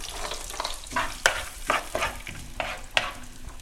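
Onion sizzles in heated oil and butter in a deep, wide pan, with steady frying crackle and several sharp scraping stir strokes throughout.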